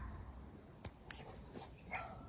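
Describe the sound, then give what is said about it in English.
A few faint, sharp barks or yips from a small chihuahua, short and spaced apart over a low, steady background hiss. “That's a dog. There's a dog. It's a chihuahua with bronchitis.”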